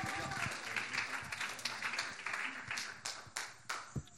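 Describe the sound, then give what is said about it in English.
A church audience applauds to welcome a guest speaker. Dense, steady clapping gradually thins into a few separate, sharper claps near the end. “Let's give him a hand of welcome. Love this man.”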